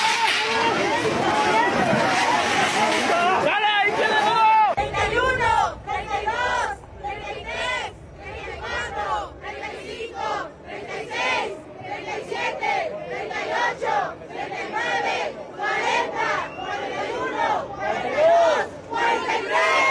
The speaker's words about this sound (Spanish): Los manifestantes expresaron su inconformidad por la situación de violencia y desapariciones en el país mediante diversas consignas. Vamos a escuchar.